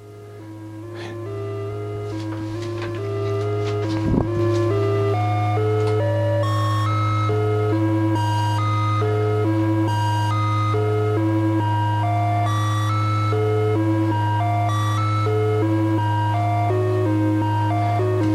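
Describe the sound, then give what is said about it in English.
A Turing machine module sequences a Eurorack modular synthesizer, stepping through evenly paced electronic notes that jump between pitches over a loud, steady low drone throughout. “So this is, I believe, an acorn's worth of information to let you know how to use a Turing machine in Eurorack.”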